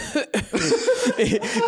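A person imitates an awkward cough, the kind heard after a joke falls flat: a quick run of short, throaty, voiced bursts, loud and alone, with a half-laughing edge.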